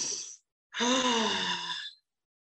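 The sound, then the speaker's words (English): A deep breath in and out during a guided hand-on-heart exercise: a short breath followed by a longer, voiced, sighing exhale, alone. “place your right hand on your heart and your left hand on your belly, and take a deep breath.”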